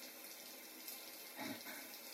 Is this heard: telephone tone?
no